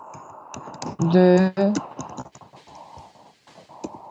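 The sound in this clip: Keys clatter as a message is typed into a chat, with rapid irregular clicks running under and between spoken talk.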